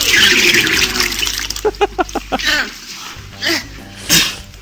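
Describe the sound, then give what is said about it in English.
A woman vomiting, very wet and gurgling, with a drowning, choking quality: a few sputtering retches and splashes, then spaced gagging bursts with breathy, liquid noise between them. No talk. “the vomit is so wet. It actually sounds like she's drowning in the vomit that's coming out of her mouth.”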